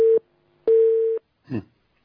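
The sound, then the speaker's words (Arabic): A busy tone after a phone line cuts off during a call: two loud, steady, mid-pitched beeps, the first cut short, with a pause between them. “الخط فصل.”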